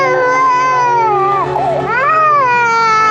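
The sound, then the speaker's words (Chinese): A child cries in one long, loud, drawn-out wail whose pitch wavers and dips in the middle before rising again. “孩子在哭呢。”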